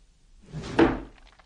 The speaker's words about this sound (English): Open that window. Let's see if he's still talking.